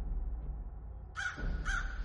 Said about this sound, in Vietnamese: Ở trên trời, đám quạ hoang vẫn cứ bay loạn xạ kêu lên nháo nhác,